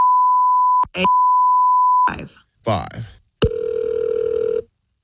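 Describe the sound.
Telephone tones while calling a phone number: a steady pitched tone broken by one short gap, then a few irregular bursts, then a louder, buzzier tone lasting about a second before stopping.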